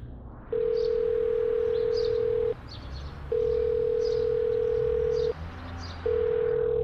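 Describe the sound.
A telephone ringback tone for an unanswered call sounds three times as long, steady, mid-pitched tones of about two seconds each, separated by short gaps, over a low background hum.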